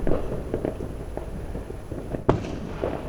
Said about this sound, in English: Michelle says, here the fireworks are dying down.